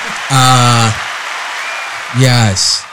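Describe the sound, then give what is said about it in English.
An excited studio crowd applauding and cheering, a steady wash of clapping with loud voiced calls rising over it at the start and again near the end. “yes. The crowd is excited. Is extremely excited.”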